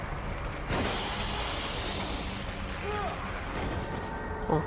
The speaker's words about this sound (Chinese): 小手枪也是有用的。哎呀，脱离危险。而且很神奇的是，我刚才明明开了三枪，对不对？